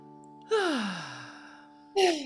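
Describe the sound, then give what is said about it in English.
Deep breath let out as a long, audible sigh with a falling voiced tone, then a second breath starts near the end. “And now before we stop though, just take a deep breath.”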